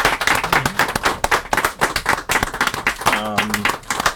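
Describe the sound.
An audience at a bookstore event claps in a dense, continuous round of applause, loud and steady throughout. A voice is briefly heard over it near the end.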